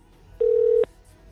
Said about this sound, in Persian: الان من کنترل شیفت رو گرفتم، یه پی میزنم رفت برای یه کال. خب بزنیم کال برقرار بشه.